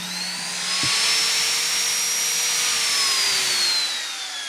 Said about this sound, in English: So this is a die grinder. It's what I used to carve necks with.